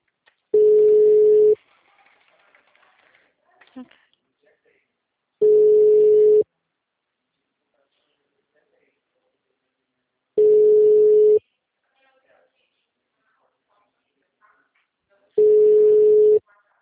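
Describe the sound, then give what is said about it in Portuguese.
Low, steady phone line tone after a dropped call: four long beeps of the same pitch, each about a second, separated by long silent gaps. “Oi? Oi, a ligação caiu?”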